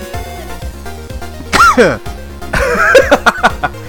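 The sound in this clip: Coughing from a person who inhaled air the wrong way: one harsh, throaty burst, then a loud cluster of several sharp coughs in quick succession.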